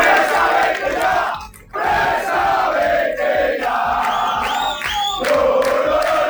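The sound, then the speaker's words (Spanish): Football fans protest at a stadium in Vallecas, their crowd roaring and chanting loudly in a steady mass of shouting voices. The noise dips sharply once near the start, then surges back and keeps going. “Las protestas de la afición del Rayo, concentrada ayer en el estadio”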